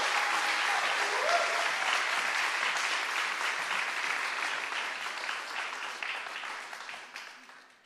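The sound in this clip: Audience applause welcoming a pastor to speak at a Mother's Day church service: steady, dense clapping from a crowd that holds for several seconds before fading out.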